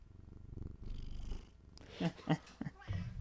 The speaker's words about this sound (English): If you hear purring or various noises, I have my cat right now.